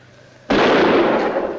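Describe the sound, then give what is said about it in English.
A gun is fired at a man in a lamplit room. After a low, quiet hum comes one sudden, loud blast with a sharp attack and a harsh, noisy tail that lasts about a second. “She shoots Mike in the belly as he approaches.”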